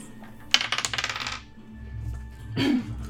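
An eight-sided die is rolled on a table, giving a quick rattling run of many small clicks that clatter for under a second and then stop, leaving low, quiet background sound.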